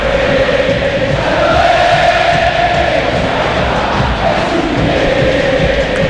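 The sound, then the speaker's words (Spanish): River Plate supporters cheer at the Monumental stadium during a football match: a loud, sustained crowd roar that stays dense and steady throughout, with no clear breaks. “Cuando así se levanta la gente de River, escuchen al público millonario aquí en el Monumental.”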